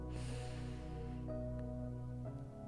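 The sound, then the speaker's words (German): A deep breath is drawn in during a guided relaxation, a soft breathy rush over sustained calm tones that fades after about a second. “Dann setz dich bequem hin und atme einmal ganz tief ein”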